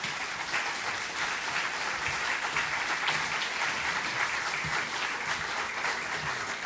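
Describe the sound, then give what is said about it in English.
Audience applause at the Free Library welcoming a speaker, a steady, even wash of many hands clapping that stays at a moderate level for the whole stretch, with no voices over it. “ladies and gentlemen, please welcome Stephen Brill to the Free Library.”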